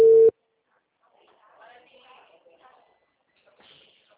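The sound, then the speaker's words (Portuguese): A telephone call tone sounds as a call is placed: a single steady, mid-pitched electronic beep lasting a fraction of a second. Near-silence and faint, muffled voices follow. “Tô ligando pro Fernando agora.”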